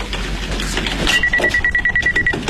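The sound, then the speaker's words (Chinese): An electronic telephone ring starts partway in, a rapid pulsing high-pitched warble that repeats steadily and loudly over a busy background. “恰好此时电话铃响。 哎，我来接。”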